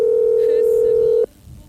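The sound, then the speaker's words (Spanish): A telephone ringback tone on an unanswered call: one steady, pure mid-pitched tone lasting just over a second, then cut off abruptly, leaving only faint background hiss. “No me atiende, che. Pará. Tarda. Estoy acostumbrado igual que no me atiendan el teléfono.”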